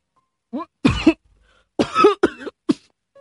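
Harsh coughing and throat-clearing from a person bringing up water after mouth-to-mouth breathing and chest compressions following near-drowning; a handful of sharp, irregular bursts separated by brief silences.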